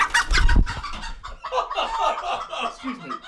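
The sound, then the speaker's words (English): Chickens and hungry little chicks cluck and cheep at a state fair, opening with a loud flurry of clucking, then a busy stream of overlapping higher chirps and clucks. “Those little chicks must be hungry.”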